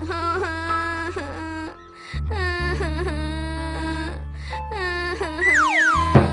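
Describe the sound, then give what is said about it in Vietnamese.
A young fairy character wails and whimpers in a high, tonal cry with bending and gliding pitch, broken by a short pause, over steady low sustained tones. “Làm sao con khóc?”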